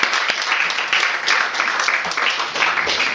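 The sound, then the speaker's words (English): An audience applauds the introduction of a poet at a poetry reading for a new collection. Dense, loud clapping fills the whole clip as a steady, even wash of many hands. “So put your hands together, you guys, for Stephanie Ford. Yay!”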